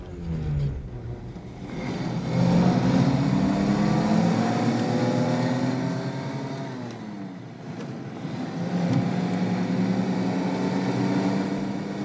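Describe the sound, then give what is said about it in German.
A car engine drives and shifts into third gear: a steady, loud motor hum climbs in pitch, dips briefly as the gear changes, then climbs again under continued acceleration, with no talk. “Nachher gehe ich ans Steuer. Nein, kommt nicht in Frage. Anweisung von Dr. Morton, ich soll dich fahren. Ärzte. Dann nimm doch endlich einen dritten Gang, ja?”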